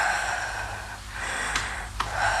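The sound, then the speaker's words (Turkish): A person breathes in during a medical examination, drawing a soft, breathy intake of air that sounds like a gasp. It is faint and airy with no voices. “Nefes alın.”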